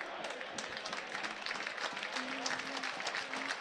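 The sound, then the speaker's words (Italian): Crowd applause at a Modena football match as a substituted player, number 8, leaves the field; faint, steady, spread-out clapping that continues evenly throughout. “esce tra gli applausi.”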